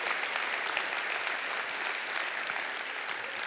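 Audience applause in a room during a Memorial Day weekend service, a dense, steady wash of many hands clapping at even loudness for the whole stretch, with no voices over it.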